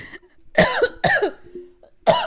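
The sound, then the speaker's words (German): Harsh coughing from someone who has choked out of excitement: three loud, raspy cough bursts with short gaps between them, the last one after a longer pause. “Ja, direkt verschluckt vor Aufregung.”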